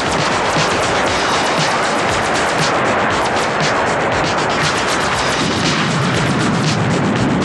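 Laser missiles fired from a base make a loud, unbroken roar of rapid blasts and rumbling explosions, dense and harsh from start to finish.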